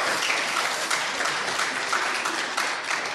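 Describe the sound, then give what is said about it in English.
A church audience applauding to welcome gap year volunteers: dense, steady clapping from many hands, sustained evenly throughout with no talk. “So please put your hands together as you welcome them.”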